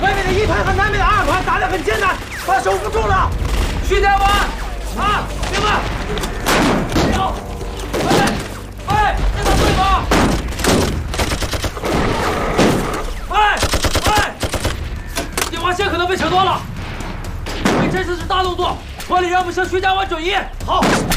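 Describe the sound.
Heavy gunfire in a battle against bandits holding the high ground, dense volleys, rapid bursts and thudding impacts that barely let up across twenty seconds, with people talking amid the shooting.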